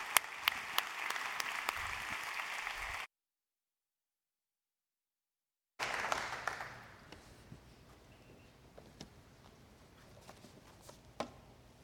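Applause welcomes a preacher to the pulpit at a church service: a burst of clapping breaks off into silence, then resumes and gradually thins out to scattered claps.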